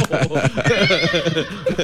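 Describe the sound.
A horse whinnies with a wavering, shaky pitch, the neigh filling the moment as one continuous, loud, fluttering call.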